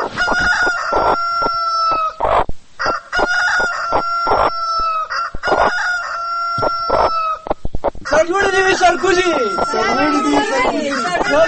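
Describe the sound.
Roosters and hens crowing and clucking: loud, repeated drawn-out crows, then a busier burst of overlapping clucks and squawks.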